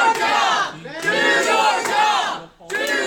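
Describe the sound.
A large crowd chants and cheers in unison, loud, rhythmic voices rising and falling in repeated phrases, with a brief dip before the roar resumes.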